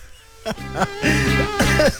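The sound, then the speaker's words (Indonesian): A few harsh coughs from a person in hot, sticky, hazy weather, short rough bursts mixed with voiced, throaty sounds, fairly loud and spread over about two seconds. “Batuk aku.”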